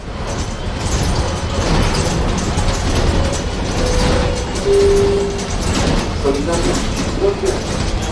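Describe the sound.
An old Jelcz city bus, over 20 years old, drives through Tarnów: a loud, steady engine roar runs throughout, with rattling, creaking bodywork and a few brief whining tones.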